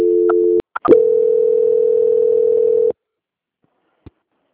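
Telephone dial tone after a dropped call: a steady, continuous tone broken briefly by a couple of clicks, then resuming for about two seconds before cutting off. A single faint click follows in the silence.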